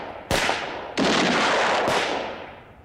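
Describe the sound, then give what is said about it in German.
Three gunshots fired by armed guards at someone trying to escape, each a loud sharp crack with a long decaying tail, spaced less than a second apart, with no talk. “Klar schießen die. Die müssen doch schießen.”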